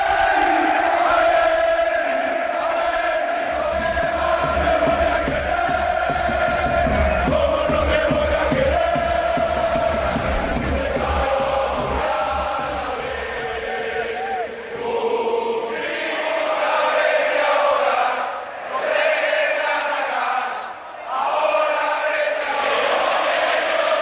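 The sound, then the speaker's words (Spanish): A stadium crowd chanting and cheering: a loud, massed roar of voices with sung chant lines that carries on for the full stretch and dips only briefly near the end. “El gobierno lo acaba de confirmar, vuelve el público a los estadios.”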